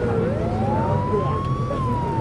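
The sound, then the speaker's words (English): Police car siren wailing as the car overtakes a coach on the road, a loud continuous tone that climbs and then holds high, with engine noise underneath. “The cop car overtakes the coach with lights flashing.”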